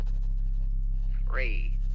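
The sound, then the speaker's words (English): Pen or pencil scratching as something is written down, a steady scribbling texture over a continuous low electrical hum. “Let me write this down.”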